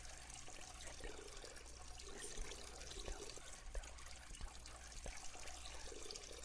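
Flowing water trickles in a continuous, faint stream, a soft, even splashing wash with small dribbling pops scattered through it.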